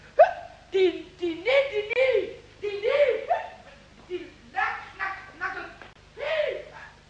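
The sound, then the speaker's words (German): A voice performs many hiccups for a cartoonish character in a German radio play. They come as a string of squeaky, yelping gulps at an uneven rhythm, loud and close together. “der Schluckauf wurde nur noch schlimmer”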